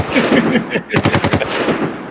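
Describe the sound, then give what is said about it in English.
A rapid burst of machine-gun gunfire, used as a sound effect, cracks out in quick succession over a dense, steady background, then the background carries on alone. “Oh, shots fired.”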